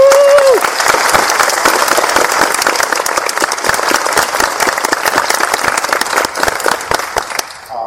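Audience applause welcoming guests in Kansas City: dense, sustained clapping from a crowd that carries on for about eight seconds and eases slightly toward the end.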